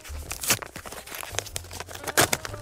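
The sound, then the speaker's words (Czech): Paper envelope of clues being torn open and handled, with irregular crinkling, tearing and rustling bursts over a faint low hum. “K tomu by nám měly pomoct indicie, který tady před sebou mám v obálkách. Já je budu postupně otevírat, tak uvidíme, co tam najdeme. Tak jdeme na to, otevírám první.”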